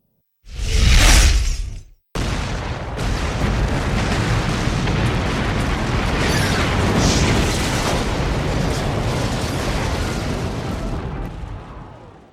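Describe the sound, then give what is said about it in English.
A missile hits a building and explodes: a loud, booming blast lasts about a second and a half, then after a brief break comes a long, steady roar of rumbling debris that holds for around ten seconds. “the missile hit the building itself.”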